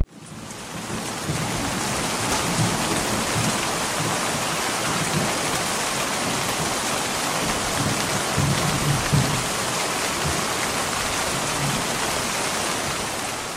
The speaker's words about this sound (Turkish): Evet, bir yağmur sesiydi kısaca dinlediğimiz.